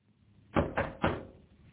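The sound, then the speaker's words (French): Three knocks on a hotel room door, evenly spaced and fairly soft: dull wooden thuds in quick succession, then silence. “On frappe.”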